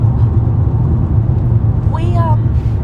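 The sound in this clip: Steady low road and engine rumble from inside a moving car, continuous throughout, with a brief voice rising over it near the end.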